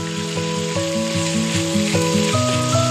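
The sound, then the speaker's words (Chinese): Minced beef stir-frying in hot rapeseed oil in a wok for mapo tofu, cooked until crisp and tender. A loud, continuous sizzle runs for the whole clip over a steady stepped tune. “热锅下菜油，烧至六成熟，再放入剁细的牛肉末，煸炒至酥嫩。”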